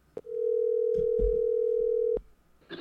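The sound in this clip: A telephone dial tone sounds while a call is being placed: one steady, unbroken tone of about two seconds, framed by faint clicks at its start and end.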